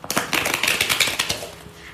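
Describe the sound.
Something being shuffled makes a dense, steady run of quick papery flicks and clicks for about two seconds, easing off toward the end.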